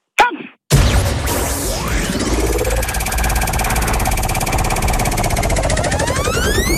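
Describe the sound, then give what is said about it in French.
A game show prize wheel is spun hard: a sharp knock, then a dense, rapid stream of loud ratcheting clicks as the pointer runs over the pegs, holding a steady pace to the end. “prenez toutes les forces que vous avez en vous pour lancer la roue, c'est quand vous voulez.”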